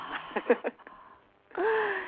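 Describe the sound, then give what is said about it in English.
A breath drawn in through the nose and let out through the mouth as a long, steady voiced "ah", done as a calming breathing exercise for children. Brief voice-like sounds come first, then the sustained "ah" is loud to the end. “And you breathe in through your nose, so everyone can do it. Let's breathe in and let the air out of your mouth and say, ah.”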